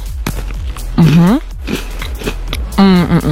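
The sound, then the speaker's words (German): Crisp crunches of someone biting into a cookie with caramel topping, a few sharp bites, interrupted by voiced humming sounds from the eater. “Also einen leckeren Keks mit Karamell-Topping. Beiß doch gerne mal rein und probiert.”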